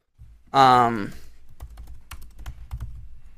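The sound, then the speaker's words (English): Keyboard typing as someone types out a list of picks: a brief voiced sound comes first, then many quick, uneven keystroke clicks continue steadily to the end. “All right, I type mine out.”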